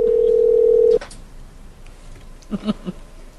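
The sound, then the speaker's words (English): Phone keypad tones as random numbers are typed in at a voicemail prompt: a steady, clear phone tone holds for about a second and cuts off, then after a pause three short, fairly faint keypad beeps follow in quick succession. “Type random numbers into a phone.”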